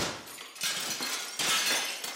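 A caravan window's glass is smashed out in a few sharp, noisy shattering bursts separated by short pauses. The crashes are bright and harsh but fairly faint overall, with no voices.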